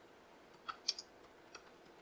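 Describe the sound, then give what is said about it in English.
Typing on a keyboard, with sparse, faint, sharp key clicks arriving irregularly, several in quick pairs, separated by short quiet gaps and no talk. “you guys are not unused to listening to me type”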